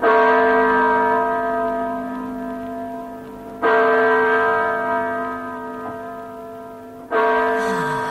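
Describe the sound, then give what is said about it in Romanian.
A bell or clock strikes nine o'clock. Three deep, resonant strokes fall about three and a half seconds apart, each ringing on and slowly fading before the next. “S-a bătut de nouă.”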